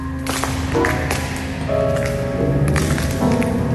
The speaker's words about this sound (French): C'est quoi ce bruit là ? Là on marche sur du verre, c'est les néons qui sont au plafond, qui se sont fait casser.